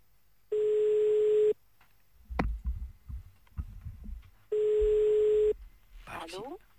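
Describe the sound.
Telephone ringing tones as a call is placed: two one-second tones, evenly spaced about three seconds apart, with people talking in the gap between them.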